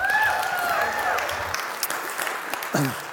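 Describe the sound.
Applause from the audience at Revolution Church welcoming a guest speaker, a dense, sustained clatter of many hands, with a voice over it at the start and another brief vocal call near the end.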